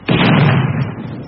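A naval gun fires one loud blast at a surfaced German submarine. It is a sharp boom with a long, rumbling roar that slowly fades over about a second.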